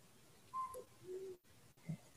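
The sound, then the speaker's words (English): Night bird call with an alarm-like quality: a few faint, short whistled notes at differing pitches over a soft, steady hiss. “And there's a variety of birds around here. What you hear is, it sounds like an alarm. It's a bird that goes on a good part of the night.”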